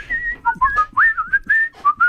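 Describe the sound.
Melodic whistling by a skilled whistler: a quick phrase of many short, clear notes whose pitch hops up and down, loud and with no other sound.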